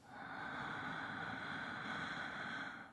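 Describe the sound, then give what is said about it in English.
A slow, deep breath is drawn in through the nose during a guided calm-breathing meditation, a soft, steady airy hiss that swells and fades over about three seconds. “Breathe in through the nose, deep breath.”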